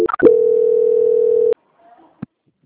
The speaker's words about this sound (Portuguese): Só um minuto. Transferência.